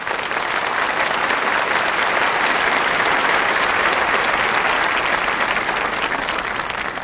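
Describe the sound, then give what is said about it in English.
Sustained audience applause at a religious talk: a dense, even wash of many hands clapping that stays loud and steady from start to finish, with no voices standing out. “Wow, applaud him.”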